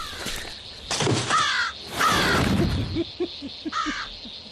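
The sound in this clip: A carrion crow caws several times, harsh raspy calls spaced across a few seconds, with fainter short clicking sounds between the later caws.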